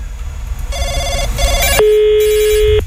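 Telephone ringing with bursts of electronic warbling tones, then a single long, steady, mid-pitched tone, loud and without voices.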